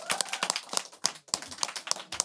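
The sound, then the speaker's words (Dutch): Audience applause for a group of young activists about to present on discrimination: scattered, fairly sparse hand claps at moderate loudness, with individual claps distinct rather than a dense roar. “Mag ik een groot applaus voor ze?”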